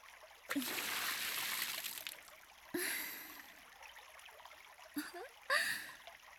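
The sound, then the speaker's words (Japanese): Water poured over a shoulder to rinse off slime, a few soft splashing streams, each starting sharply and then tailing off, quiet with short pauses between. “反対側の肩からも水をかけてあげる。”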